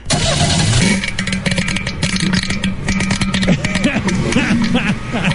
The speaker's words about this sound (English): it sounds like something rolling around in the motor's come loose. So, like a loose spark plug or something? There. Sound like a rod or something done come loose in that thing. What kind of car is it? 74 olds.